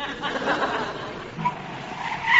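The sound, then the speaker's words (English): A voice imitates a petrol pump with a finger stuck in one ear, making a continuous rasping, whirring noise that wavers throughout and swells louder at the end. “I shall stick my finger in my ear and do my impression of a petrol pump.”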